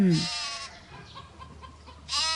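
A lamb bleats twice, a wavering, nasal cry at the start and another cut off at the end, with a quieter stretch between them.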